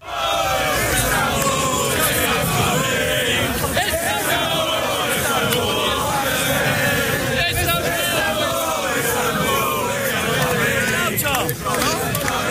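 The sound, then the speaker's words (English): Football fans celebrating outside Stamford Bridge after Chelsea's 2-0 win over Real Madrid sent them to the Champions League final, a dense, continuous roar of shouting and singing voices that stays loud throughout. “That's the sound of fans outside Stamford Bridge celebrating the result.”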